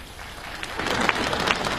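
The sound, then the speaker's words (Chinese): An audience applauds at a performance, a steady dense patter of many hands clapping at moderate loudness, with no voices over it. “你对得起这么热情的观众吗？你对得起这么热烈的掌声吗？”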